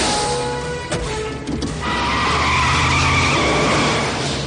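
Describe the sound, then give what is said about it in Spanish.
Tires skid as a car speeds off fast from a cemetery during a shootout. A harsh, sustained screech rides over roaring engine noise and swells louder after the first two seconds. “Consigue llegar sano al vehículo y arranca muy deprisa.”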